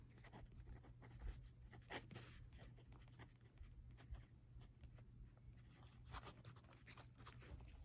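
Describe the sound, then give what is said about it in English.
Someone writes something down, making a faint, continuous scratching with many small, quick strokes. “Let me write that down.”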